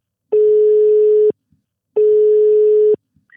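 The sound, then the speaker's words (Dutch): Two long, steady electronic telephone tones, each about a second long with a short gap between, signal an outgoing call on the line. The tones are loud and clear with no voices over them. “En we gaan haar eens eventjes bellen om te vragen hoe zij daarnaar kijkt.”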